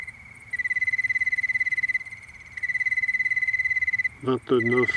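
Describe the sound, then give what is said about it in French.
Crickets chirping at night on a mountain pass in late September, on a cool 12-degree evening after a warm sunny day: a steady, high, rapidly pulsing trill in two long runs with a brief pause between, and a voice briefly at the end. “Il a fait très beau toute la journée, donc les grillons se sont remplis de chaleur et d'énergie.”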